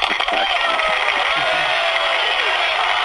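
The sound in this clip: A studio audience cheers and claps after a birthday song on a show, a steady, noisy wash of crowd sound with a few higher shouts.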